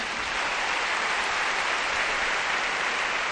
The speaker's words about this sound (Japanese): そしてベーシスト平石克美にどうぞ盛大な拍手。